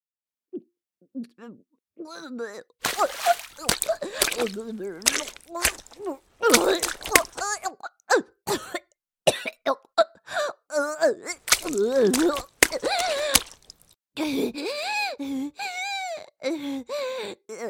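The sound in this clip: A person retches and vomits into a tub in a string of irregular heaves. Gasping, groaning vocal strains alternate with harsh, noisy splutters over many seconds.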